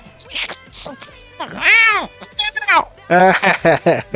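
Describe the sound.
A human voice imitates a cat, producing a few drawn-out, meow-like wails with arching pitch contours and shorter yowling bursts, loud and alone without other talk.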